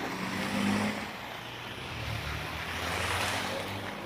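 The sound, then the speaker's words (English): Cars pass along a road under a grey, overcast sky. Their tyres make a broad, rushing hiss that swells and eases gently, with no voices. “Seven cars.”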